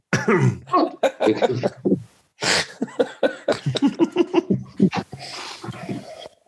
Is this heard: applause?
no